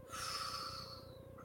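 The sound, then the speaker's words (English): A forceful exhale during a group breathing exercise: a single steady blown rush of air lasting over a second, soft and breathy. “If everybody just pays attention to their outward breath for a moment and just blows out,”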